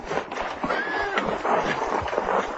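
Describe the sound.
A horse whinnies once with an arching neigh that rises and then falls, over steady background noise and faint movement.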